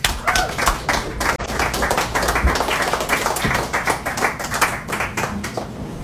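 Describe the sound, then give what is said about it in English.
An audience applauds at a live poetry reading, with many quick, sharp hand claps sustained at an even level throughout. “Give yourselves a hand.”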